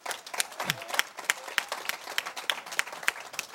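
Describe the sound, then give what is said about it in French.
Applause from a church audience during a service, many hands clapping together in a fairly steady rhythm, moderately loud and continuous throughout. “Acclamons le Seigneur, nous tous.”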